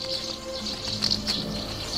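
A swallow chirps in quick, high tweets while flying in circles and touching the water with its wings. The bird calls are fairly faint over a low steady hum, with a few brighter chirps near the middle.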